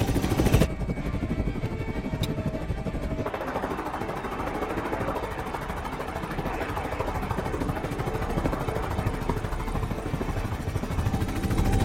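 Loud, steady engine roar of an aircraft taking off, a broad continuous rumble with rapid throbbing that holds evenly throughout after a short, slightly different opening.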